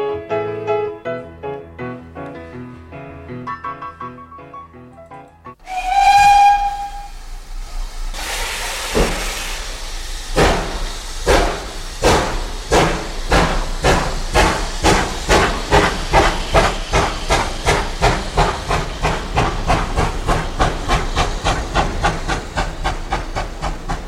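A steam train departing: a loud whistle blast, then a burst of hissing steam and a steady run of rhythmic chuffs that gradually quicken. The chuffs continue as a regular pulsing beat over a constant hiss.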